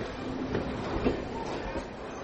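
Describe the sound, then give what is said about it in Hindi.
A train pulls out from a station platform with a steady, mid-level rumble of rolling wagons that holds fairly even throughout. “Train platform से चली गई है।”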